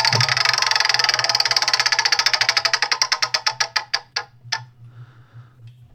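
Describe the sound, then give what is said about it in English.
A prize wheel spins with rapid ticking clicks that gradually slow and spread apart, then stop after a few final clicks. “I'm going to spin the wheel.”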